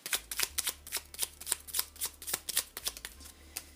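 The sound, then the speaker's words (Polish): Tarot cards being shuffled while someone searches the deck for a particular card: many quick, papery riffles in a steady, even rhythm, moderately loud with no talk. “Teraz szukam karty wskazówki dla koziorożca na marzec 2021.”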